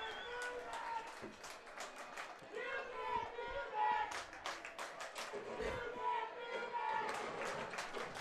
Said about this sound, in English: This crowd is fired up.